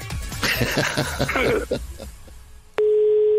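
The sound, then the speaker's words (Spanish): A telephone line tone follows the dialing of a number: an abrupt, loud, steady continuous hum near the end, after a stretch of voices and rustling. “Vamos a marcar al de la mamá, al que nos diste.”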